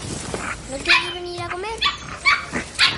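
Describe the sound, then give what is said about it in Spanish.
Dogs whimpering and yapping inside a straw-bedded pen: a drawn-out, wavering whine, then a few short, sharp yaps and barks at irregular intervals. “Ana sale del cercado con paja donde guarda a los perros y Sam”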